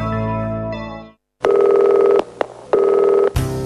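Telephone dialing tones: a steady tone fades out, then after a short silence come several loud, even electronic tone bursts separated by brief gaps and a click.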